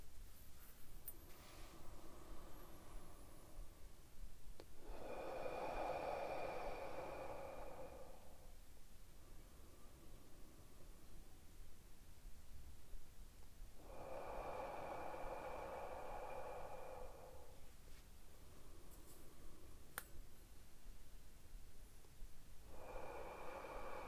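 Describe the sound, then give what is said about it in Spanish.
Slow deep breathing during a guided relaxation exercise, drawn in through the nose and let out through the mouth, a few long cycles of soft airy inhales and louder breathy exhales over steady faint hiss. “Vamos a hacer tres respiraciones más. Inhalando profundo por la nariz y exhalando profundo por la boca.”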